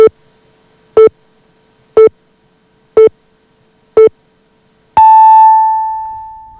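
Radio time signal pips mark the hour before a Swahili-language news bulletin. Five short identical beeps sound one second apart, then a sixth, longer and higher-pitched tone rings out and slowly fades.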